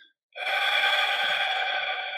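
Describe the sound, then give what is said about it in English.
A deep cleansing breath out during a guided breathing exercise, emptying all the air: one long, steady, airy exhale that begins after a short silence and holds its loudness for about two seconds, heard alone. “we're going to do three cleansing breaths to start. Begin by breathing out all your air.”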